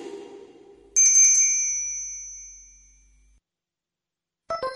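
A short attention sound effect for commercials: a single bright, bell-like ding strikes loudly and rings out, fading smoothly over about two seconds. A softer sound precedes it, and another brief tonal burst starts at the very end.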